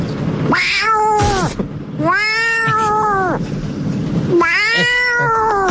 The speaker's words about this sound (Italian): Questo è il mio gatto personalizzato. Proviamo a vedere se la dottoressa riesce a capire cosa dice.